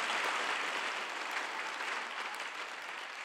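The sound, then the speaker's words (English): A church audience claps and shouts in steady, dense applause that stays loud throughout, a broad noisy wash with no single voice standing out. “Come on, let's give the Lord a shout and a clap right there.”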